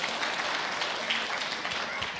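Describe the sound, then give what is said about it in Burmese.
An audience claps in thanks for parents at a gathering of praise: continuous, fairly loud clapping that holds an even level throughout. “ဖေဖေမေမေများအတွက်လက်ခုပ်တီးလျက်ကျေးဇူးတော်ချီးမွမ်းကြရအောင”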